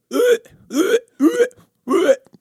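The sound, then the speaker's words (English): A voice imitates double hiccups, making four short, loud, clipped gulping bursts at a fairly even rhythm, each rising slightly in pitch, separated by brief silences. “I get hiccups at night, and there's nothing worse than hearing me because, like, I get the double hiccups because I'm shaped like Winnie the Pooh”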